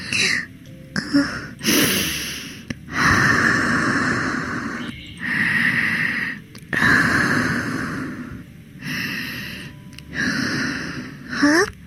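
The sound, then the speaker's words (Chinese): Deep, audible breaths from a nervous person about to begin: several long, loud inhales and exhales, each separated by a short pause. “如果要开始的话，让我深呼吸一下吧，我有点紧张。”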